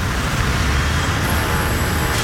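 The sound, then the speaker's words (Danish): Chaotic road traffic at a roundabout with no pedestrian crossing: a steady, dense rumble of passing vehicles with a continuous low roar and a faint high whine, no voices. “Allerede havnet min første rundkørsel. Fuldstændig uden fodgængerovergang. Fuldstændig kaotisk trafik.”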